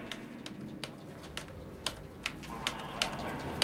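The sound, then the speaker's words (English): Typing on a computer keyboard at a desk produces a sparse, uneven run of faint, crisp key clicks over a quiet, steady background. “He looks at his monitor and starts typing on the computer, inputting the name Elizabeth Ann Reston”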